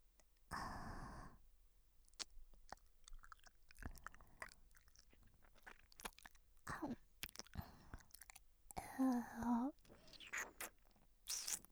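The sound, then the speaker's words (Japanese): Wet mouth sounds from ASMR ear-eating play: many soft, irregular smacks, clicks and chewing-like noises, with breathy bursts between them. The sounds are close, quiet and intimate, with no clear talk. “君のお耳を久しぶりに食べるね。やっぱり君のお耳とっても美味しい。”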